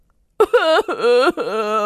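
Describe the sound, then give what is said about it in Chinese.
A person wails loudly in grief over a lost harvest after two years of hard work. Three long, wavering cries with no words follow a short silence. “结果期盼这么久的希望居然破灭了，不禁悲从中来，就大哭了起来。”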